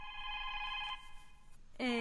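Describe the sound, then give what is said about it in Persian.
Electronic telephone ringing in a studio during a children's program: a steady, bright tone for about a second, a short pause, then a second warbling burst begins right at the end. “اجازه است آقای سلام که من تلفن برنامه رو جواب بتم؟”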